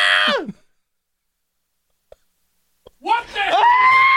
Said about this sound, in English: we can't tell whether it's the sound of the goat screaming or the sound of me screaming. But all we just hear screaming, incessant screaming beyond the glass.